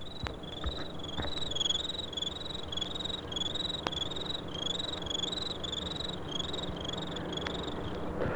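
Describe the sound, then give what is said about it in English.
Crickets chirping at night, a faint and steady series of many high, evenly spaced chirps repeating in a regular pulse over a soft background hiss. “I usually start off the repertoire with crickets at night.”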